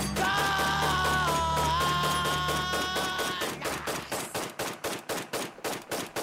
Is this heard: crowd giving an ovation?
no